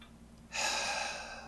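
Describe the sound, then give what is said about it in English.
One deep breath is drawn in, a breathy hiss that starts suddenly and holds steady for about a second, fairly faint and alone. “I have to take a deep breath.”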